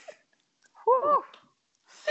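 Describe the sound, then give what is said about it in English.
A deep breath with a short voiced, breathy sigh in the middle and a softer rush of air near the end; otherwise quiet. “Okay. Deep breath.”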